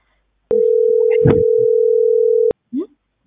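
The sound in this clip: A telephone dial tone heard while calling someone back: a steady, loud tone lasting about two seconds with a voice talking over it, and a short vocal sound just after it stops.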